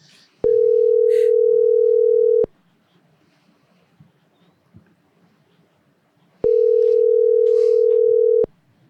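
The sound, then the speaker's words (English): Ringback tone of an outgoing telephone call: two long, steady, mid-pitched rings of about two seconds each, separated by a silent gap of about four seconds, with only faint background noise and no talk. “Is it ringing? Yeah. I don't hear it. There we go. We got it. I hope he answers this cocksucker.”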